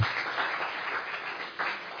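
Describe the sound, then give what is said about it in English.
Congregation applause, a praise clap for God during worship, with many hands clapping in a dense, steady wash that holds for the whole moment and swells again briefly near the end. “What we've just done is actually, we've just given God a praise clap, which is wonderful, isn't it?”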